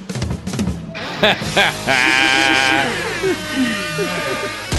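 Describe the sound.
A sheep bleat sound effect cues a message from a woman. The loud, wavering, nasal cry lasts about a second and comes after sharp brief bursts, with fainter mixed sounds trailing after it.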